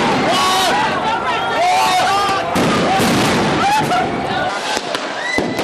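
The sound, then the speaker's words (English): Gunfire-like bangs ring out during a police raid in Oakland, California: several sharp, loud cracks burst over a steady crowd hubbub of voices and noise. “That's the sounds of a police raid all day yesterday in Oakland, California, starting at 5 a.m. in the morning and ending just around midnight last night.”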